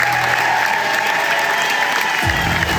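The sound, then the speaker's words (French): Audience applause as actors take their bows one by one at the end of a stage show, including a singer and actor. Dense, steady clapping fills the whole stretch at a constant loud level with no pauses. “les applaudissements sont particulièrement nourris.”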